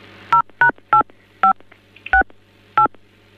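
Telephone keypad tones while a call is transferred to another extension: several short, sharp beeps in an uneven rhythm over a low steady hum.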